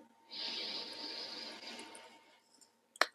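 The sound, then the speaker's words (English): One long, soft deep breath, taken during a guided breathing exercise, rises as a faint airy hiss and slowly fades over about two seconds, with a short click near the end. “we can start with just taking a few deep breaths in together”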